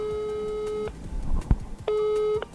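Ringing tone of an outgoing telephone call to a patient from a medical monitoring service: two steady electronic tones separated by a pause, the first longer, with a short knock in between.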